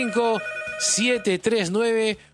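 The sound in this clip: A telephone rings for an incoming call-in, with a steady, bright, repeating ring tone and a voice heard over it.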